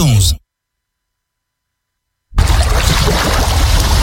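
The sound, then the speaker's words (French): A sea sound effect of waves washing: after a brief sound and a stretch of silence, a loud, steady, hissing surge of water and surf begins abruptly and continues. “Fermez les yeux. Vous entendez la mer, le vent doux sur la peau et les mains de Frédéric”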